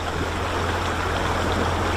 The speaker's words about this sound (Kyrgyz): Жыйынтыгында мөңгүдөн түшкөн тунук суу булганып, кара кочкул тартып турат.